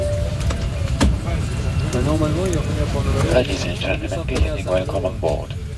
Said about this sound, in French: Oui, vous avez reconnu, vous êtes bien dans un aéroport en 1980.